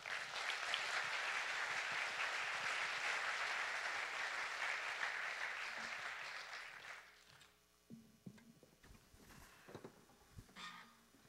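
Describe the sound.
Audience applause welcoming two speakers to a morning gathering, a dense, sustained clapping that lasts about seven seconds before fading into quieter scattered noises.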